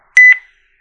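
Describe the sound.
A short electronic beep from a phone call disconnecting, a bright two-part tone that stops quickly and leaves silence.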